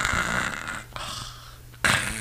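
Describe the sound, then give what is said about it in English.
A voice imitates a snore with a few raspy, breathy rumbles, the last one louder and harsher. “And I hear this snore. It's like,”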